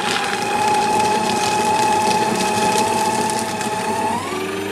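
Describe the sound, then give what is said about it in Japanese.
A paper shredder runs with a steady, loud motor whine over a gritty grinding texture; the tone steps up in pitch near the end. “すべてのこのなかったことにしたいことをこちらシュレッダーにかけて、なかったことに、バイバイ。”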